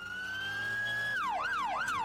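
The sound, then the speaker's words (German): An ambulance siren on a rescue vehicle racing onto a motorway at night in rain: a long, steady high tone, then quick falling-and-rising sweeps repeating, loud and alone without voices. “Der Rettungswagen schießt auf die Autobahn. Blaulicht schneidet durch den Regen. Die Sirene zerreißt die Nacht.”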